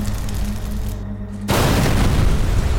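A room explodes into flames when gas tanks are ignited by a cigarette. A low steady hum suddenly gives way to a loud, sustained roaring blast that carries on to the end.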